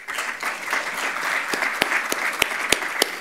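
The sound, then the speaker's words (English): Audience clapping after a talk: dense, steady applause runs through the whole stretch, with a few sharper individual claps standing out near the end. “I'll join in the clapping because you're not clapping for me.”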